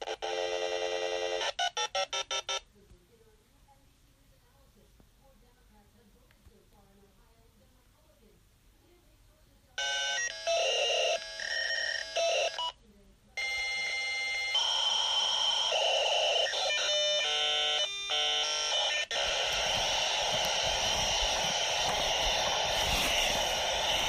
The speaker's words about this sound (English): Yep. Here we go. We're connecting to the internet. Dialing.